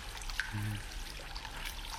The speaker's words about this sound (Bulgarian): Ето и изворчето. А водата е много хубава